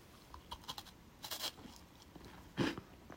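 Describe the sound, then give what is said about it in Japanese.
Quiet crisp bites and crunching of an assorted Rokkatei sweet with white chocolate, a few soft clicking chews followed by one louder, brittle crunch near the end. “ではちょっとこちらの方もいただいてみますいただきます”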